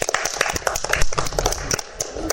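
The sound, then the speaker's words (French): Scattered, uneven clapping for a child introduced to a group, with loud irregular claps and a few low thumps in short bursts that thin out near the end. “On applaudit Félix.”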